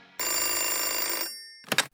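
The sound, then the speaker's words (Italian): A telephone ringing with one long, loud, shrill ring, a short pause, then a brief second burst, with no talk over it. “d'improvviso arriva una di quelle telefonate che riescono a svoltarti la giornata.”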